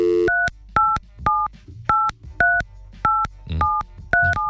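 Telephone keypad tones ring out as a number is dialed: eight evenly spaced, clear two-note beeps over a faint background.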